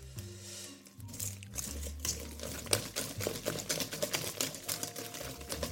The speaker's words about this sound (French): J'ai une poudre de cardamome qui est prête à être ajoutée dans mon gâteau. Et donc, je vais venir mélanger tout ça doucement, délicatement, pour pas mettre de la farine partout.